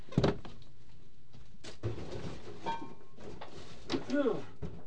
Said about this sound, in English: It's so freaking hot in here. It's cold. I got to open a window.